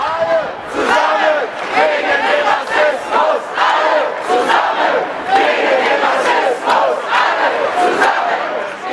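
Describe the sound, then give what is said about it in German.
A crowd at a demonstration against racism chants in unison, with loud, evenly spaced bursts of massed voices repeating a rhythmic call throughout. “Und wir starten vielleicht noch mal mit einem Ton von einer Demonstration zu dem Thema Rassismus, über das wir jetzt schon, häufiger angetippt haben.”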